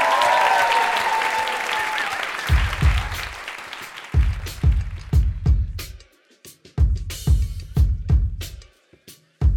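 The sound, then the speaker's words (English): Audience applause and cheering for comedian Michelle Buteau, rising in loud, irregular bursts with brief dips between them. “Make some noise for Michelle. Yay!”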